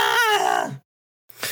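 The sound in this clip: The Wilhelm scream sound effect, a man's loud yell used for a character falling into a pit, with a strong voiced tone that slides downward before cutting off, followed by the brief onset of another sound.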